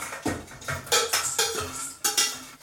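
Fried food is tipped onto a metal sieve to drain off olive oil, giving a run of clattering metallic knocks and scrapes. Several sharp hits come in an uneven rhythm.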